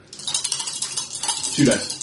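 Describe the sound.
Two dice roll across a table during a tabletop game, giving a quick rattling clatter that ends in a brighter knock, with talk faintly beneath.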